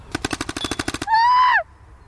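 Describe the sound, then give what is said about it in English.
Gunfire rings out in a rapid burst of about ten sharp, evenly spaced shots, followed by a bright whistling tone that holds steady and then drops off abruptly. “That sounded like you just shot her in the leg.”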